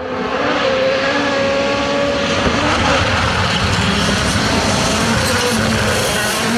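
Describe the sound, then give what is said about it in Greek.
A rally car at the Acropolis Rally takes a corner flat out, its engine a dense, steady roar that stays loud from start to finish. “Αυτό που ακούς είναι πατημένες σέκτες σε στροφή.”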